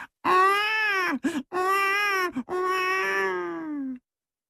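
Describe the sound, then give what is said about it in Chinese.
A baby cries loudly in the mountains: three long wailing cries with a steady pitch, separated by short breaks. The final cry trails off slowly. “就听这山里头啊有小孩的啼哭之声，这个声音是十分的洪亮啊。”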